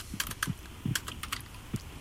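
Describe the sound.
Typing on a computer keyboard gives a quick, irregular run of soft clicking keystrokes, faint and heard alone without talk.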